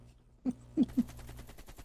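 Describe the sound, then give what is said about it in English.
Gunfire in a shooter video game: three muffled shots in quick, uneven succession, fairly faint over a steady low background hum. “Now you're getting shot back at.”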